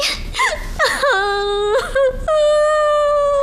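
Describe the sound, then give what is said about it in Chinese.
A person crying loudly, with short broken sobs and whimpers that dip in pitch, then long sustained high wails. “你哭什么呀？啊，你别哭啊”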